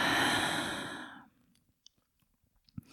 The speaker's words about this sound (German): Atme tief ein und aus.